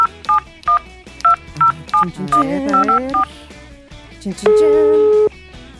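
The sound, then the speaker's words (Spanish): Telephone keypad tones as a number is dialed: a rapid series of short, bright beeps in an uneven rhythm, then one longer sustained tone. “Así que vamos a marcar en este instante.”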